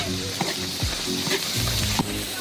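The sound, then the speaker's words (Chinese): Oil sizzles loudly as Sichuan hand-made aged doubanjiang and a blended pickled er jing tiao chili paste are stir-fried, with a steady hiss broken by a few scraping stirs. “酱料炒香”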